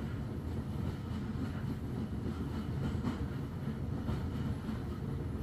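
Interior ambience of a train carriage with mahogany-rich corridors: a steady, low rumbling drone with a dense, even noise bed that holds constant throughout, with no voices.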